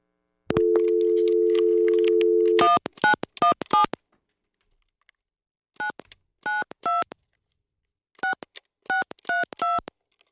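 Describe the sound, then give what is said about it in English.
A telephone dial tone is followed by many touch-tone keypad beeps as a call is placed and the caller waits for an answer. The beeps come in short, evenly spaced bursts, grouped with brief pauses between them. “So we're going to call them and we're going to hope that they pick up.”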